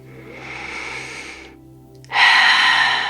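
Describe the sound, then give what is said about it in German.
Deep, slow breathing during a guided relaxation exercise: a long, soft airy breath, a brief near-silent pause, then a louder, fuller rush of air that fades gradually, with no talking. “Dann lass einfach deine Atemzüge wieder tiefer werden.”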